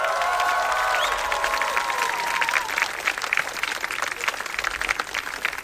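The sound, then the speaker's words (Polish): A crowd in a courtyard at a summer outdoor concert cheers and applauds. Whoops and shouts ride over dense clapping through the first few seconds, then the clapping carries on loud and steady alone. “przetestujmy to, nie wiem, jakieś okrzyki, brawa, sprawdźmy to jak jest.”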